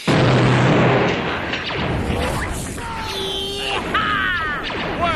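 Science-fiction blaster fire during an attack: a loud burst opens, then several bright zapping shots with sharply sweeping, whistling tones ring out over a rumbling, noisy bed.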